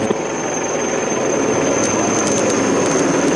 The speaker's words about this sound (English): this is the latest picking up live visuals of the choppers, the Mi-17 of the Indian Air Force, of the Indian Army, paying floral tributes